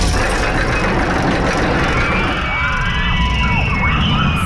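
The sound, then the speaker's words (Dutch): Figure-eight roller coaster at Appelscha racing past, a continuous loud rumbling roar with a whining tone that sweeps up and down, steady from start to finish. “Wat een heerlijk geluid is dit. Het is het geluid van de Appelscha 8-baan. En als je die hoort, als je die hoort voorbij razen in de uitzending”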